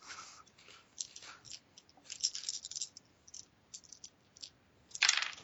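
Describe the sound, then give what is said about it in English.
Dice fall and clatter on a floor in many faint, sharp clicks and rattles that come in scattered bursts, with a louder cluster of clicks near the end. “Stop dropping on the floor, dice.”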